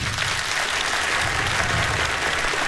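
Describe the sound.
Audience applause for a guitarist at a live band show: dense, steady clapping that holds at an even, loud level throughout.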